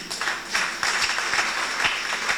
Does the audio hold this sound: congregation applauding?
yes